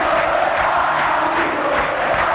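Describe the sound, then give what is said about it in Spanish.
Olimpia football fans celebrate at the end of a match in a full stadium. A loud, constant crowd roar holds without a break through the whole clip. “Termina con este festejo franqueado. Así siente el hincha de Olimpia al final.”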